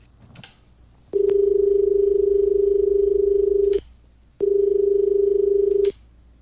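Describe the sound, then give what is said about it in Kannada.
A telephone rings with an incoming call. Two long, steady, buzzy tones come through, the first about two and a half seconds and the second shorter, with a brief silent gap between them and no talk. “ಮತ್ತೊಂದು ಕರೆ ಬರ್ತಾ ಇದೆ, ನೋಡೋಣ.”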